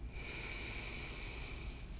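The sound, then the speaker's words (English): Faint, steady airy inhale through the nose, taken as a deep breath, with a thin hiss held evenly for about two seconds and nothing else heard. “I want you to take a deep breath in through the nose”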